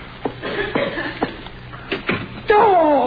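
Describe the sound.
A door slammed shut in an old radio comedy scene: several sharp knocks and bangs, followed by a voice.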